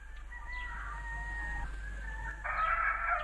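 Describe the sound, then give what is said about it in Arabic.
A rooster crows in a drawn-out, steady call, then lets out a louder, harsher burst near the end, over a constant low hum. “وفي هذه الأثناء عاد ديك وبصحبته أرنو، ولما شاهد بنفسه ما يجري صاح وقال:”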